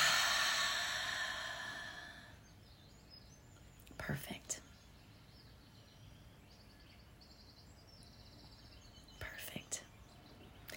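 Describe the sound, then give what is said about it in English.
Airy breathing from a guided meditation exercise: a long, loud breathy release at the start fades out, then two shorter soft breaths follow over quiet background, with no talking. “Let's take a deep breath in and release.”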